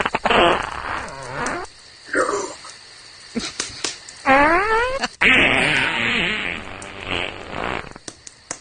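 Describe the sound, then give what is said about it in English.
Comic fart noises are dubbed over a Star Wars scene of Yoda talking to Luke on Dagobah, a loud run of buzzy, sputtering blasts of varied length, one warbling upward in pitch, separated by short pauses. “they've taken Yoda talking to Luke on Dagobah, and they've added just nothing but farts, and it's very well done.”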